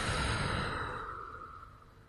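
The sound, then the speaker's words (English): One long breath pushed out through the mouth during a calming exercise, a broad airy rush that starts loud and fades steadily over about two seconds, with no talk. “Let's take another breath together. Breathe in through your nose and out through your mouth.”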